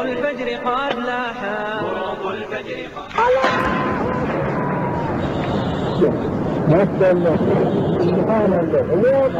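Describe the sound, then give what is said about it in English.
An explosion demolishing a 1,500-year-old Buddha statue bursts in suddenly and gives way to a loud, sustained rumbling roar. Voices are heard before the blast and continue over it. “That was the Taliban destroying a 1,500-year-old statue of Buddha.”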